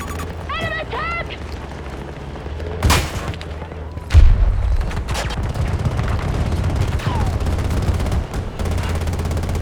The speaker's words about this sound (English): This Gatling gun is the worst.